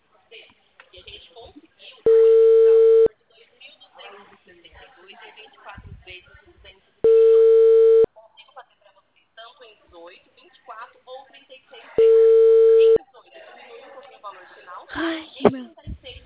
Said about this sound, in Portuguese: tá chamando.